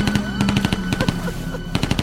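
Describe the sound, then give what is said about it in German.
Loud automatic gunfire aimed at the listener's position, a dense, continuous run of rapid shots with sharp repeated cracks that fill the whole stretch without a pause. “Mann, warum schießen bloß alle auf uns?”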